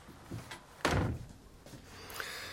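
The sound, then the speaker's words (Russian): A sticking house door being forced open: one loud, heavy thud with a few fainter knocks and scrapes around it, quiet overall. “Заходите в дом. Эту чертову дверь заедает.”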